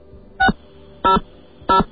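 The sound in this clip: Telephone keypad tones dialing extension 600 on a hotline menu: three short, evenly spaced electronic beeps, fairly loud over a faint background hum.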